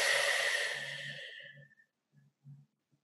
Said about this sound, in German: Und noch einmal einatmen. Und ausatmen.